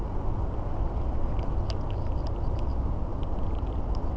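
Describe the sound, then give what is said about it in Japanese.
Rain patters on a water surface while fishing, making a dense, steady hiss with faint scattered droplet ticks throughout and no voices. “雨、あ、雨だ、ベイトかバチか網かと思ったら雨でした。水面が騒がしくなって、”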